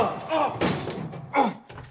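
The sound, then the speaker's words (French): A locked broom-cupboard door is tried, giving a few dull thunks and thuds. Faint voice-like sounds appear between the knocks. “Ça, c'est une porte de placard. Tiens, il est fermé à clé.”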